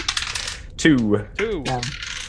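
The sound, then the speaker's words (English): Five eight-sided dice are rolled during a tabletop role-playing game, giving a rattling clatter at the start and another burst of clicking at the end. “roll 5d8”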